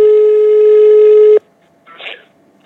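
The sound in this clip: Telephone tone as a call is placed: a loud, steady buzzing tone holds for over a second and cuts off abruptly, followed by a brief, softer burst of sound.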